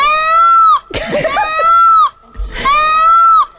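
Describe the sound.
Peacock calls from a neighbour's bird in the countryside: two loud, long, nasal wailing cries, each holding a steady high pitch, separated by a harsher, noisier burst.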